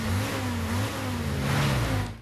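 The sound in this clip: A car engine accelerating as the vehicle drives off, a steady low, harmonic drone that swells slightly midway, then drops away abruptly at the very end.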